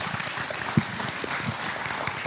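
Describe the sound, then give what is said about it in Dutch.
Warm, encouraging applause from a gathered audience thanking someone for sharing their story. Steady, even clapping with one sharper clap standing out early on, fairly soft throughout. “En niet voor mensverheerlijking, maar we geven even een warm, bemoedigend applaus.”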